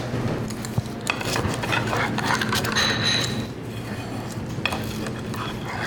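Slicing a freshly baked pie with a blistered crust: scraping cuts and a few sharp clinks of a utensil over a steady background hum.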